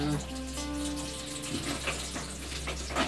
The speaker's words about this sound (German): Verdammte Eiswürfel, die gehen nicht raus. Halt sie unter den Wasserhahn.